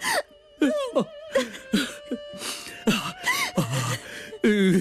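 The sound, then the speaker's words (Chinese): A person cries loudly in many halting, broken sobs and whimpering wails that waver up and down in pitch, with short catches of breath between them. “东三莫哭莫哭啊”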